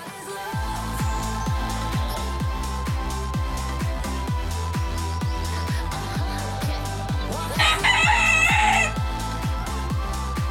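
Chicken clucking and crowing sounds, tied to a mock international chicken-throwing championship, ride over a steady, loud thumping beat, with a brighter, higher burst of squawking near the end.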